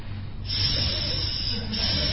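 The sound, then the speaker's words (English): A voice imitating hissing snakes makes a sustained, breathy hiss. It swells after about half a second and then holds steady to the end. “What's down at the bottom of the well? A bunch of hissing snakes.”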